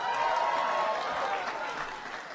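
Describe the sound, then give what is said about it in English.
Applause at the White House for the national champion Alabama Crimson Tide: dense, steady clapping from a large crowd, loud throughout and easing slightly toward the end. “So let's give it up for the national champs, the Alabama Crimson Tide.”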